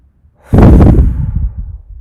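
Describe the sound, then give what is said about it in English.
A single deep breath rushes in loudly and broadly after a near-silent start, holding for about a second before tapering off unevenly. “Doesn't it feel good just to like take a nice deep breath?”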